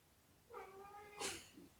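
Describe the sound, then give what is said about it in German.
A tomcat going wild gives one drawn-out, quiet yowl that holds a steady, nasal pitch, then breaks into a harsh, raspy burst. A short, low moan follows at the end. “ich weiß nicht, ob man das hört, aber hier dreht gerade der Kater völlig durch.”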